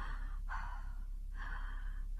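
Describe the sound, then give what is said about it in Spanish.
Deep breathing during a stethoscope examination of a coughing, feverish patient with bronchitis: faint, airy breaths repeating in a few steady cycles, each a soft hiss separated by brief dips, with no talking. “Vamos a ver, déjame auscultarte. Respira profundo.”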